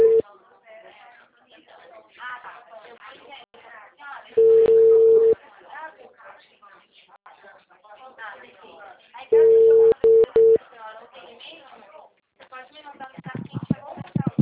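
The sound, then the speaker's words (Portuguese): A steady, mid-pitched telephone line tone after a dropped call sounds in two separate stretches, the second one broken into short bursts. Voices talk before, between and after the tones. “Oi, caiu a ligação.”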